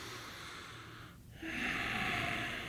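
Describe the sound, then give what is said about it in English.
A person takes a deep breath of air: one long, breathy, hissing inhale that grows louder partway through and holds steady to the end, with no talking. “That was not a nutritious breath of air. Take another breath.”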